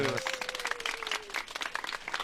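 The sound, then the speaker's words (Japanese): Audience applause for a guest at a Japanese community event, a dense, continuous patter of many hands. A brief voice trails off at the very start, then the clapping carries on steadily at moderate volume. “皆さん大きな拍手をお送りいただきましょう。”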